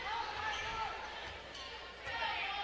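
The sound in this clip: A basketball dribbled on a court during a women's man-to-man game, faint bounces set in a steady wash of gym and crowd noise.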